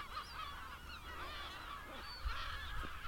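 Geese honk on a Scottish hillside near old war fortifications, several overlapping nasal calls blending into a steady, fairly faint chorus with no talk.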